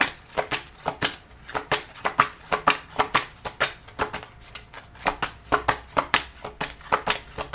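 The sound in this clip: Playing cards are shuffled again and again during a card reading, making rapid, papery riffles and snaps. The bursts come in a steady, even rhythm and are fairly soft.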